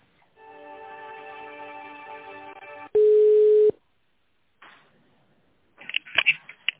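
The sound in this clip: Telephone line tones sound while a call is being connected. A steady buzzy tone lasts about two and a half seconds, then a louder pure beep plays, followed by brief clicks and crackly line noise.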